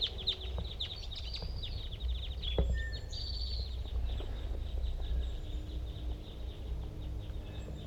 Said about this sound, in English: cross-billed large race female, and there's a male hanging out very tight, and a lot of other cross-bills. They all appear to be the same call type, big guys. I'm going to record that male.